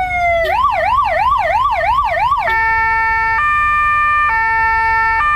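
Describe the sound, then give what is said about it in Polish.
A motorcycle ambulance, adapted for first aid and riding at a cycling race, sounds its loud siren: rapid warbling pitch sweeps for about two seconds, then a steady high-low two-tone alternation. “Stoimy przy twoim ambulansie, ale to jest jednośladowy ambulans, to nie jest takie oczywiste. To jest motoambulans tak zwany, czyli motocykl, który został przystosowany do udzielania pierwszej pomocy.”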